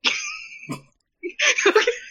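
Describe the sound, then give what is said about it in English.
A voice imitates coughing up seawater with two bursts of gurgling, sputtering coughs separated by a short silent pause. “As soon as you think about accepting this deal, you wake up coughing up seawater. That was me coughing up seawater.”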